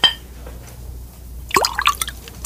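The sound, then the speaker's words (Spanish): Wine is poured into a king's goblet in a brief liquid splash followed by a few quick drips and trickles, short and fairly crisp after near silence. “Tenga esta copa, es mi copa. Sí, su majestad. Ahora llénela de vino.”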